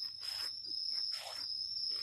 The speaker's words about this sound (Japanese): 虫やカエルの鳴き声ってどうしてあんなに落ち着くんでしょうね。